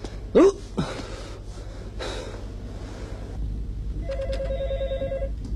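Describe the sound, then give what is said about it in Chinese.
Telephone ring trills once near the end as a short, fairly faint ringing burst. It follows a sharp gasp and breathy noises at the start, over a steady low background hum. “电话。 哎，来了。喂，哪位啊？”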